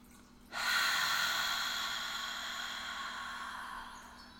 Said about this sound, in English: So let's get ourselves comfortable. And let's take a nice, deep, deep breath in.